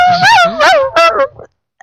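A person imitates a puppy's whimper with a few high, whiny yelps that waver in pitch. The last one is softer and trails off into silence.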